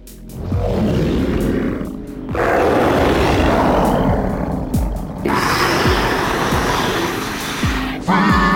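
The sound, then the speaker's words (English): Monstrous creature roars built with Dehumanizer creature sound design software: a few long, loud, rough growling roars, each sustained for seconds with brief breaks between them. “So basically you can create creatures, monsters, robots, and anything in between. And it's all real time. So that was our first software. And I guess that's the software we are most famous for.”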